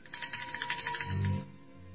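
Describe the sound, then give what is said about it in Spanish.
A call bell rung to summon a maid gives a bright, ringing peal for over a second before dying away into a low hum. “Bueno, hice sonar el llamador, y cuando una de las doncellas compareció, le pedí un café.”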